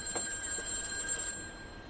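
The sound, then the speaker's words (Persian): A telephone rings with a faint, steady electronic tone that holds for over a second before cutting off, leaving only low hiss. “همچین موقعی کی داره زنگ میزنه؟”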